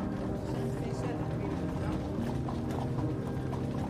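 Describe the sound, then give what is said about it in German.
Hooves of horse-drawn carriages clip-clop on a street in an even, regular rhythm that runs throughout, with a murmur of voices underneath. “fahren die ersten Pferdekutschen vor. Das regelmäßige Getrappel der Hufe gibt den Takt der Gesellschaft an.”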